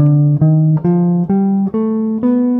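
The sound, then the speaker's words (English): A C melodic minor scale played on an instrument: six sustained, loud notes stepping evenly upward in pitch, heard alone. “So C melodic minor sounds like this.”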